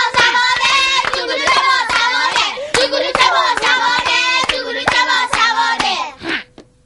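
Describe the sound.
Children clapping in a steady rhythm during a lesson, with many sharp, evenly spaced claps under the children's loud chanting voices; the chant and claps stop together near the end.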